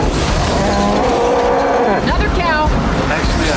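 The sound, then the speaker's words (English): Cow mooing in a scene from the 1996 film Twister, drawn-out lowing calls with wavering, bending pitch heard over a loud, constant roaring rush of noise. “We got cows. Another cow.”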